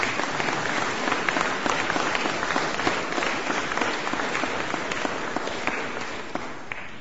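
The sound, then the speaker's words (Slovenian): Church parishioners applauding themselves, a long, steady wash of many overlapping claps at moderate loudness, holding evenly for several seconds before thinning slightly toward the end. “Sami sebi zaploskajte.”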